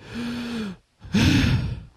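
A person gasps twice: first a drawn-out, voiced gasp with a steady tone, then after a brief silence a louder, breathier gasp.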